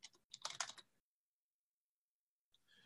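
Quick clacking keystrokes on a computer keyboard come in a short, fairly quiet burst, then stop for a pause before typing resumes briefly at the end.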